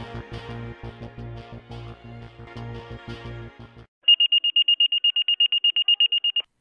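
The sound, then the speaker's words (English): A fire station dispatch alert tone: a rapid, pulsing low buzz for about four seconds, then after a brief gap a fast, loud series of many high-pitched beeps. “The tone sounds and the dispatcher announces, Stations 14 and 16, working residential structure.”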